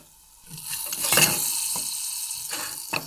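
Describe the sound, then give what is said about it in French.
Butter melts in a very small pan with a soft, steady sizzle that swells after the start, plus a few faint stirring clicks; no voices. “On prend un autre petit poêlon, tout petit. Et on reprend beaucoup de beurre qu'on va juste faire fondre.”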